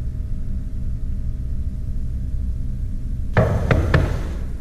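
Three sharp, evenly spaced knocks break a quiet background of low hum and rumble near the end.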